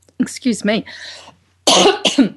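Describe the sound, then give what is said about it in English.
A phlegmy human cough: a run of several raspy, voiced coughing bursts, a brief pause, then two more harsh bursts, loud and close with nothing else beneath. “surrender to the cough. I'm surrendering to the cough.”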